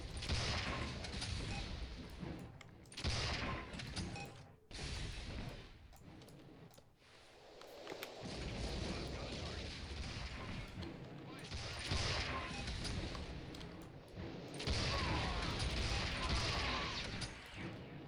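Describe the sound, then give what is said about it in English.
Rockets go off and guns fire in a video game battle. Dense, continuous blasts, crackling bursts and rattling fire overlap and barely let up, with a short lull in the middle. “Lots of rockets going off around us.”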